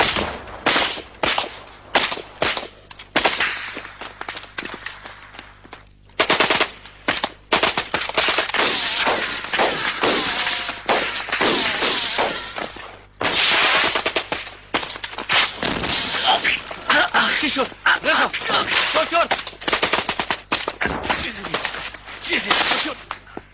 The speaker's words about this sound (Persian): شون تیر خورد. برین کمکشون.